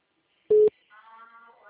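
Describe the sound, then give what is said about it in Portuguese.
Telephone tone after a dropped call: one short, steady mid-pitched beep lasting about a fifth of a second, then a voice begins speaking. “A ligação caiu, né? Tá ouvindo?”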